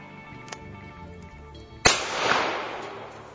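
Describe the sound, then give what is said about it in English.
A single loud, sharp gunshot from a handgun cracks out suddenly, followed by a noisy, slowly decaying tail. “Is there a chamber indicator? Yeah, there's one in there. Yeah, okay. Here, you shoot it. I'm going to back up.”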